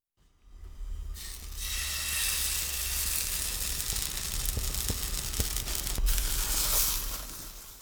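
Battered snack pieces fry in oil in a pot over low heat, giving a dense, continuous sizzling hiss with scattered small pops and crackles. It runs steadily throughout, with no voices.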